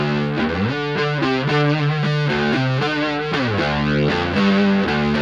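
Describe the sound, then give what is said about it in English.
Distorted electric guitar, double-tracked after the gain stage with a slight chorus effect. It plays loud, thick chords that shift through several changes. The doubled layers give a wide, shimmering, detuned edge, and no one talks. “it's after the gain, so I'm basically double tracking the gain. So you can kind of hear that, like, double track slight chorus effect.”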